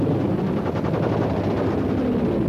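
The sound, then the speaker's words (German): Gunfire from attacking enemy fighter planes: a dense, continuous roar with rapid rattling bursts running through it, loud and steady throughout. “Sie greifen an, sie schießen!”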